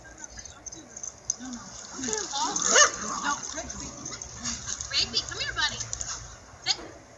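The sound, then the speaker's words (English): A dog whimpers and yips while soliciting a game of tug with a toy, giving short tonal cries that rise and fall in pitch, scattered irregularly over a steady background. “So this dog is using the toy as a play, you know, please play tug with me.”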